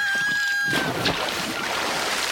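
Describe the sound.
Water sloshing around a small rocking boat, with a continuous broad hiss of wind and waves that stays at a fairly even level throughout.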